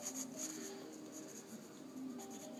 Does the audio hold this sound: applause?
no